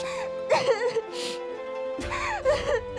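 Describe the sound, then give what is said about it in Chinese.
Whimpering and crying in a period-style audio drama, wavering, tearful voiced sobs in a few short bursts separated by breathy pauses. “别哭了。”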